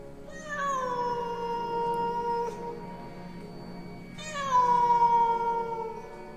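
A black cat meowing on a balcony gives two long, drawn-out, plaintive meows, each dipping in pitch as it begins and then holding a steady wail, with a brief pause between them.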